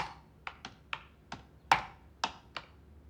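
Keys tapped on a computer keyboard while typing a name into Facebook, a few sparse, quiet clicks spaced at uneven intervals.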